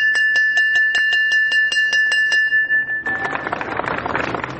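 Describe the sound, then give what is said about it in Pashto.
A school bell rings at a ceremony opening the new school year, held by the education department in Farah province: a rapid, evenly spaced run of bright metallic strikes, then a dense, noisy wash takes over after about three seconds. “د فرا ولایت د پوهنې ریاست لخوا نن د نوي ښوونیز کال د پیل زنګ په لړ مراسمو کې وغږول شو.”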